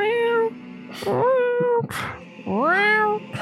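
A female house cat meows a few times, giving clear, drawn-out cries with bending pitch. A brief noisy burst falls between the calls.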